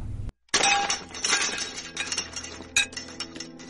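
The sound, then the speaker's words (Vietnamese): A loud, sudden breaking crash erupts on a deserted street, followed by a spray of smaller clinks and tinkling fragments that scatter and settle over the next few seconds. “Có tiếng vỡ rất lớn nổ ra gần sát sau lưng.”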